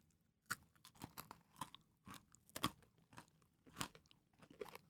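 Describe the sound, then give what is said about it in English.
Crisp crunching as someone chews yogurt-coated mini pretzels, with many irregular sharp bites and grinding crackles that come and go, fairly quiet, with no talk. “So there are these teeny tiny pretzels. Here, taste with me. They're like yogurt coated, so let's give it a shot.”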